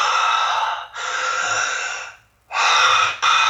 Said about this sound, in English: through the nose if you can, but you know, opening up in your mouth is fine too, but just like really diaphragmatic breathing